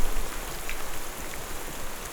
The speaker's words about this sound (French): l'humidité, la pluie devient trop intense.